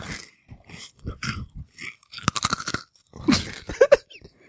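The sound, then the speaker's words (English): Crunching on a pretzel from a snack mix: many crisp, irregular bites and chews in quick bursts, fairly loud, with no talking. “Oh, I can almost taste that Chex Mix. Eat a pretzel.”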